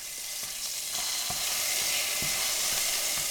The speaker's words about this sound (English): She starts by sautéing some garlic, and then she throws an icy cube of sofrito in the pan.